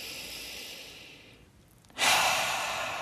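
Deep breathing, in through the nose and out through the mouth: a soft, drawn-out airy breath, a short pause, then a louder, rushing breath that slowly fades.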